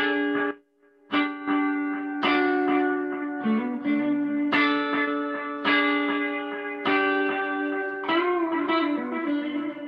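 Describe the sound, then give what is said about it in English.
An instrument played through a delay effect, its sustained harmonic notes struck at a steady, roughly one-per-second rhythm, each one ringing into the next with repeating, overlapping tails. “Delay is pretty self-explanatory. So if I hit it.”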